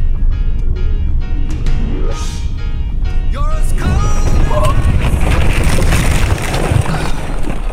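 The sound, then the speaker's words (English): A Jeep spinning off a snowy mountain road and high-centering on a snowbank: loud, continuous low rumbling and scraping noise, with brief rising whines around the middle. “When your Jeep spins lazily off the mountain road and high centers on a snowbank, you don't worry immediately about the cold. Your first thought is that you've just dented your bumper.”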